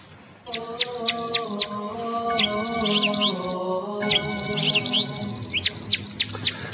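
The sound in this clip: Small birds chirping: many short, high, bright chirps, some in quick bursts, over a steady humming tone that runs underneath.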